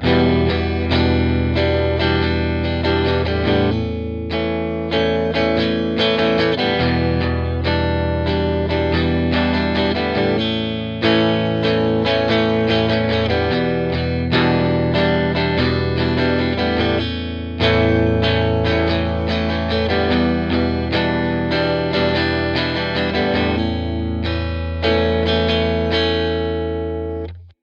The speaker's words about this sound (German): So würde der Rhythmus ohne Palm Muting und Ghost Notes klingen.